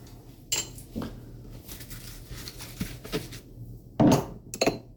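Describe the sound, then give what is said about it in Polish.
A spoon clinks against a container while half a teaspoon of sugar is added to a yeast mixture. A few soft taps and clinks come first, then a louder clatter near the end, with no talking. “No i teraz jeszcze trzeba dodać pół łyżeczki cukru.”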